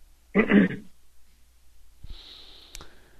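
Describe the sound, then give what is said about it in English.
Someone clears their throat in one short, rough, breathy burst, followed by quieter, fainter noise. “Oh, we got somebody clearing their throat here now.”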